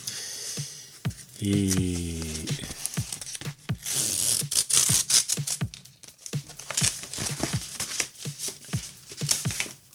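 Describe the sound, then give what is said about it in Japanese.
Brown paper envelope being torn open to reach a paper-like tablet screen protector film, with many sharp crackles, rips and crinkles in quick bursts, plus a short steady tonal buzz early on. “茶封筒の中に入っているペーパーライクフィルムなんですけれども、これちょっとね、開けてみたいと思いますが、”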